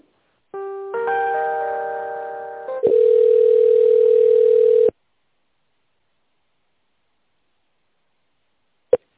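Telephone line tones while a call is being transferred: a layered, buzzing multi-tone gives way to a steady, loud single tone for about two seconds. The tone cuts off into silence, ending with one short click.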